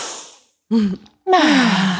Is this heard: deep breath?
yes

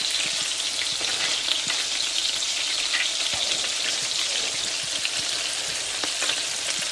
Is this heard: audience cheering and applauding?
no

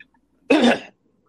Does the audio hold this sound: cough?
yes

